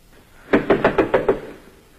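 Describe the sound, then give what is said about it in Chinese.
Knocking on a door in a staged drama: six quick, even raps in a steady rhythm, moderately loud and standing alone over a faint background. “这时传来敲门声”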